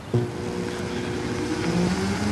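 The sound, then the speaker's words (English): Open-wheeled, Indy-style hybrid race car on an electric-only run at a speedway during a hybrid racing competition: a faint, steady whir with a thin electric whine that shifts in pitch partway through. “It's Wednesday, day three of the Formula Hybrid International Competition, and the roar of stock cars has been replaced with this.”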